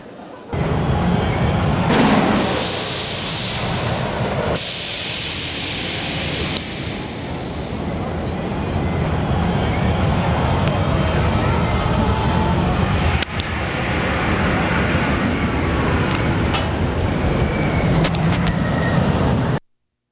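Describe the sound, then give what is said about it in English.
Roaring rumble of a Cedar Point roller coaster ride played back from a video, a loud, continuous rushing noise broken by a few abrupt shifts and lasting throughout. “I have a video of this Cedar Point roller coaster. Take a look at this roller coaster.”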